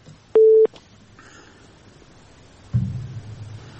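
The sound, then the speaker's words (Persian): A phone line sounds a single short, loud electronic beep after a caller on a radio call-in is disconnected. Quiet line hiss follows, then a low steady hum sets in. “بله شنونده عزیز، تماسشان قطع شد.”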